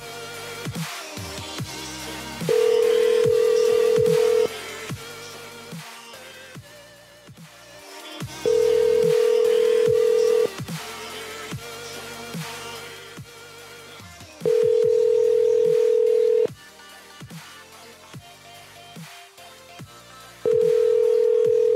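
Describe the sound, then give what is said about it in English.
A telephone call tone sounds while a number is being dialled: four steady, single-pitched beeps, each about two seconds long with pauses between, over continuous background music. “This is definitely going to be a wrong number, but I'm calling it anyway.”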